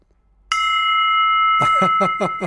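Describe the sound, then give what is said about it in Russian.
A small real bell, not a handbell, is struck once in a studio, and its bright, clear tone rings on with long sustained overtones. A person begins speaking over the fading ring. “он принес колокол, просто его поставил, и вот даже от одного присутствия небольшого колокола, настоящего, это не колокольчик, а небольшой колокол”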